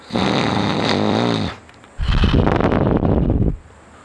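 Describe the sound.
A voice imitates the snoring of a sleeping old man: two loud, rasping snores, a long rattling one followed after a short pause by a rougher, throaty one, with no other talk.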